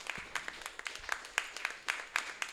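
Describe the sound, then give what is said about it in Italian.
Scattered applause from a small audience at an evening event honouring the illustrators of a book's Italian-edition cover: many separate hand claps in an uneven, sparse rhythm, fairly faint and sounding alone. “E un applauso a Simona”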